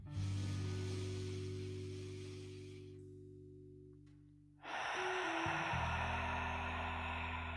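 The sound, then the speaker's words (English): A deep inhale: a long, breathy rush over a sustained low musical drone, then a quieter gap, then another long airy breath over the continuing tones. “Make them nice and big. Inhale.”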